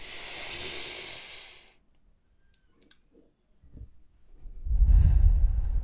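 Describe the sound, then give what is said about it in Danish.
Deep breaths in and out during a guided eyes-closed moment: a long, airy breath rush, a near-silent pause with faint clicks, then a second, lower and fuller breath. “Og så tage et par dybe indåndinger.”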